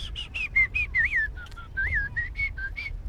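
A person whistles in a birdlike style learned by copying birds, producing many short, clear, high notes with warbling dips and bends. The notes are fairly soft, sound alone, and come in a quick, uneven rhythm.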